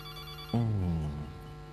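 A telephone rings with an incoming caller on a call-in line: one bright, abrupt ringing burst that fades out over a low steady hum.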